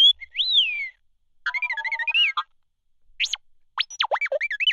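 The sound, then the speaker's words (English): Beeps and whistles of an astromech droid, a film sound effect: a warbling whistle, then a quick pulsed run of beeps, a short sharp chirp, and finally a rapid burst of swooping, chattering tones, all bright and electronic with no talk. “this is Luke Skywalker's little astro droid. They were trying to create a language for him. Let's listen to the wonderful R2.”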